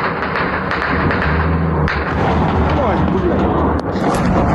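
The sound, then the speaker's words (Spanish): Bombing and artillery fire in the war in Ukraine: a few heavy thuds and sharp blasts over a continuous low rumble, with voices underneath. “La ofensiva se recrudece especialmente por parte de Putin porque sus bombardeos han matado al menos 15 personas en Ucrania en las últimas horas. Beatriz Carmona. Así han sonado a ambos lados de la frontera este domingo.”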